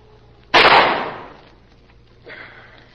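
A single gunshot in a radio drama: one loud, sudden crack that dies away over about a second, followed by a fainter rushing noise.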